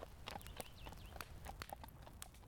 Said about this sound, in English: They all ride away at a walk.